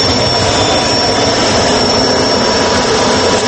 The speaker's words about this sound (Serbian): Baš u ovaj helikopter, pa pravac Srbija, da ode Hrvatska da ga više ne vidi.